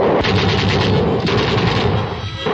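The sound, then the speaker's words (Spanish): Russian drum-magazine submachine guns fire in a snowy battle, a dense, loud, continuous rattle of rapid shots that briefly thins near the end. “Mientras, los rusos, con sus típicos gorros de orejeras y sus metralletas de tambor redondo, defienden enconadamente la posición.”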